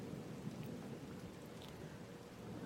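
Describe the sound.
A faint thunderstorm: continuous rain hiss over a low, rolling thunder rumble that stays steady without sharp cracks, with no voices present.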